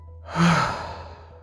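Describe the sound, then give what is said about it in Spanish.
One deep, breathy exhale in a guided breathing exercise, swelling quickly and then fading slowly, heard alone over a low steady hum. “Inhala profundo. Exhala.”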